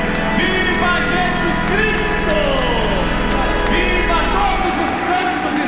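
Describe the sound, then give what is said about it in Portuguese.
An audience cheering and clapping for Our Lady Aparecida during a Mass: a loud, continuous wash of crowd voices and shouts that holds steady throughout with no pauses. “vamos dar um viva bem forte e uma belíssima salva de palmas à Nossa Senhora. Viva Nossa Senhora Aparecida! Viva a primeira vocacionada de Deus!”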